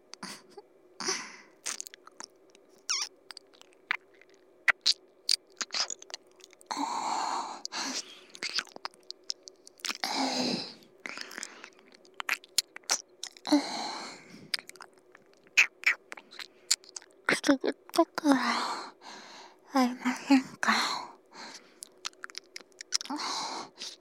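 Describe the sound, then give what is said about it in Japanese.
Wet licking and mouth sounds from an ASMR ear-licking session: many irregular soft smacks, slurps and clicks that come in clustered bursts with brief pauses, fairly quiet throughout with no talking. “お耳なめご奉仕ですよ。早速失礼して、いただきますね。”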